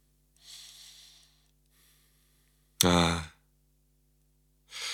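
A person breathes audibly in near silence: a long airy breath, a faint second one, then a loud, voiced, sigh-like exhale, and another breath beginning at the end.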